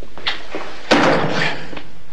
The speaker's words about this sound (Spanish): se acerca a la puerta, abre y se marcha.